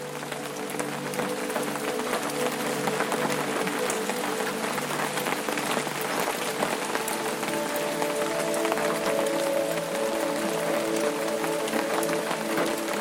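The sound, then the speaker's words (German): Rain falls steadily across the landscape in a dense, even hiss of countless drops that keeps the same level throughout, with a soft sustained musical drone beneath. “Der Regen verhüllt die Landschaft und lässt sie weich und friedlich”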